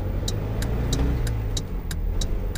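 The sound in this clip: A car engine accelerates while overtaking, a low, steady rumble under a regular high ticking of eight evenly spaced clicks.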